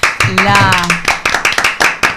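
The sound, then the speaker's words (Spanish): Hands clapping in a quick, uneven run of many sharp claps, with a voice sounding over part of it. “Los aplaudo y los felicito, con la certeza de que el agradecimiento es la memoria del corazón.”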